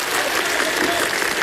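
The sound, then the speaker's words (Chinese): Enthusiastic audience applause, loud and densely packed, with a crowd clapping steadily throughout. “这真是我今天晚上听到最热烈的掌声了”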